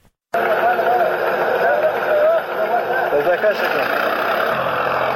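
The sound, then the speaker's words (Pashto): Tractor plowing up poppy fields in Nawzad district, Helmand. The engine drone starts abruptly and runs on loud and continuous, with a steady working rumble. “دا د هلمند په نوزاد ولسوالۍ کې پر ټراکتور د کوکنارو د کښت اړولو غږونه دي چې د طالبانو سیمه ییزې ادارې له رسنیو سره شریک کړي دي”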